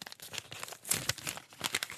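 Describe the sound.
Paper crinkling and tearing as a gift-wrapped book from a jury is unwrapped: quiet, irregular bursts of rustling and crackling wrap with short gaps between, with no talk.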